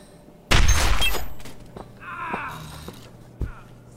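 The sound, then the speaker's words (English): A single loud gunshot fired at a weapon held in someone's hand gives a sharp crack with a decaying rumble, followed by quieter rattling and a faint thud. “Wait, you gonna shoot him? Just his weapon.”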